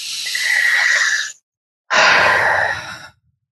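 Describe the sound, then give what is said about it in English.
A big deep breath taken during a guided tapping exercise: two long, airy breath sounds, each lasting over a second, separated by a short silent pause, with no talking. “And a big deep breath.”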